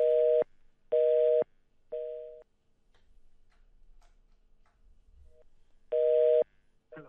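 Telephone busy signal after a dropped call: three steady two-tone beeps about a second apart, the third softer, then a long stretch of faint low noise before one more loud beep.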